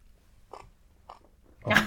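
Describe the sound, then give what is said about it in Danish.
Chewing on a mouthful of plain seaweed salad: a few soft, wet crunches spaced apart, then a louder, fuller bite at the end. “Må jeg lige høre et eksempel? Ja, hvis du lige gider tage lidt tangsalat. Bare kun tage pure tangsalat.”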